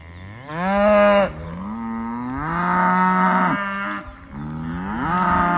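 Cattle on a pasture, animals suffering neglect beside empty water troughs, giving several long, drawn-out moos. The calls are loud and follow one another closely, some sliding in pitch, with no talk.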